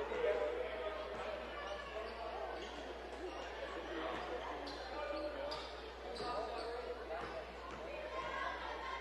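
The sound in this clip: Basketball bouncing on a hardwood court as a player dribbles before a free throw in a Washington Catholic game against the Vikings; a few soft thuds sit under steady crowd chatter.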